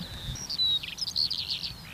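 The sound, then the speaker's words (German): A Eurasian skylark sings over an open field in Berlin, giving a quick run of high, thin chirps and trills that stand out clearly above a faint low background rumble. “Wer ist das jetzt zum Beispiel? Eine Feldlerche.”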